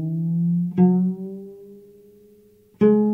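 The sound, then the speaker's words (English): Plucked notes ring from a cello's A string while the tuning peg is turned, and the pitch slides gradually upward as the string tightens. A few plucks each ring out and slowly fade. “So you can hear as I turn it down, it's getting looser and the pitch is going lower. And if I turn it back up,”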